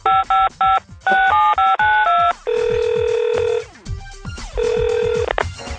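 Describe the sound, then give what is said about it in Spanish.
A quick series of electronic telephone keypad beeps after the call button is pressed, followed by two long, steady ringing tones separated by a brief gap. “Apriete el botón y espere a la telefonista.”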